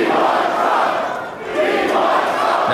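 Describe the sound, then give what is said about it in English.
A crowd boos and cheers at a shoe conference, a dense, continuous roar of many voices that dips briefly midway before swelling back to full strength. “The answer is, was he booed or was he cheered? The answer, of course, is yes. Both, apparently.”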